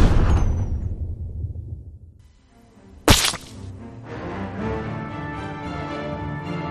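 An explosion effect from a remote-triggered device bursts out sharply after a fading rumble and a quiet lull. The loud crack then spreads into a sustained noisy wash.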